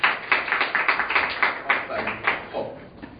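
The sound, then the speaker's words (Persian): Participants in a self-confidence workshop clap their hands together in a steady, rhythmic beat, with quick even claps that run for the whole clip at a moderate level. “دید الان دست زدید چقدر روحی مثبت گرفتید، تغییر حالات بدنی، دست زدن، صدا و روحی مثبت.”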